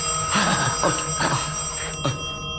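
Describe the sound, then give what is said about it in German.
A telephone bell rings with bright, metallic ringing that fills the whole clip, heard alone without talk. “Heben Sie ab. Der Anruf ist doch für Sie.”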